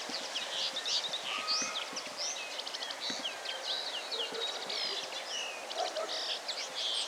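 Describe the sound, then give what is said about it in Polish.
Songbirds, likely common linnets in a rural setting, give a long run of soft, grating, squeaky twittering notes, many short high chirps tumbling over one another without pause at a fairly faint, even level. “Ja jak makolągwę słyszę, to się od razu uśmiecham. Taki typowo wiejski ptaszek.”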